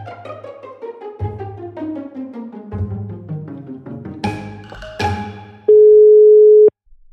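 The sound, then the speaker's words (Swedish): A telephone dial tone sounds while a call is being placed. It is a steady, loud, single-pitched tone held for about a second, following a busy run of descending musical notes. “Nu tänkte jag ringa upp Minnal.”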